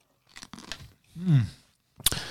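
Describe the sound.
A person chews food while eating: a few soft crunching bites, then a longer muffled chewing sound mid-clip and a sharper crunchy burst at the end, quiet overall with no talk.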